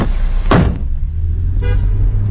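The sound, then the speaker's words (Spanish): A taxi drives through the streets of Madrid, its low engine rumble running steadily throughout, broken by a couple of brief horn toots. “Nos subimos al taxi de Pepe, un hombre que lleva 34 años recorriendo las calles de Madrid al volante.”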